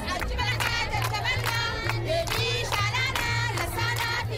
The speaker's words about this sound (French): C'est au rythme de cette chanson que la délégation a été accueillie sur le site par la population dite vulnérable au lancement de ce rapport